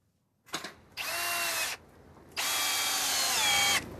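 A power screwdriver drives screws to build a replica of the 1914 Congo village in Frogner Park: a brief whir, then two long, loud, steady whirring runs with short pauses between them.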